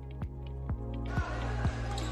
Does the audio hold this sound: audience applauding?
no

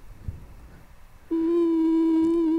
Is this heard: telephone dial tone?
yes

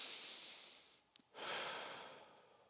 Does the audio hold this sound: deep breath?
yes

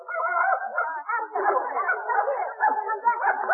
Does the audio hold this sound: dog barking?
yes

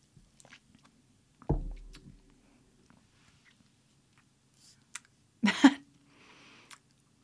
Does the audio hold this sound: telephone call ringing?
no

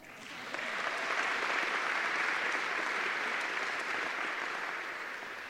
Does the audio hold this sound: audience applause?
yes

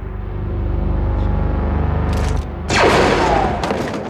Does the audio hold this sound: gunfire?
yes

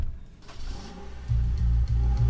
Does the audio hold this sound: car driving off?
yes

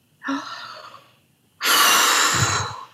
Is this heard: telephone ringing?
no

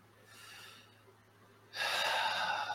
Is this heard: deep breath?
yes

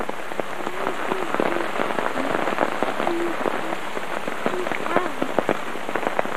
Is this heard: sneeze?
no

